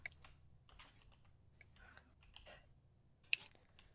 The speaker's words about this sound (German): Jetzt muss ich nur noch unser Passwort richtig schreiben, ne?